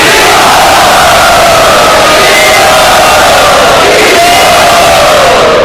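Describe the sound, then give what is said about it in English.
A crowd loudly chants Hari Bol to greet a guest speaker at a gathering, a dense, sustained roar of many voices that holds at full loudness without pause. “Everyone, please greet him by loudly chanting Hari Bol.”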